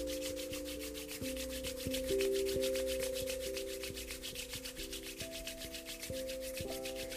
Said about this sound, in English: Bring the hands together, the palms together, and start to rub them briskly back and forth, creating that heat and that energy.